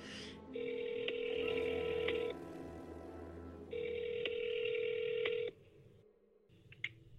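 Ringback tone of an outgoing telephone call ringing out: two long, steady, buzzing rings separated by a pause, then quiet line noise.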